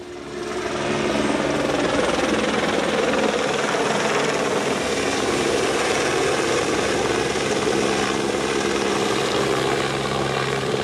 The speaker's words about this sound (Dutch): Mooi, die heli die vliegt af en aan. Die vliegt een paar rondjes, of eigenlijk één rondje, met die bak eronder.